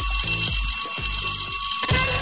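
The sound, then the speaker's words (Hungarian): A school bell rings loudly in a fast, pulsing electric jangle that repeats steadily for about two seconds. “SMS-ben, Viberen a nyerni szeretnék mondatokat várom az iskola csengő hangja után.”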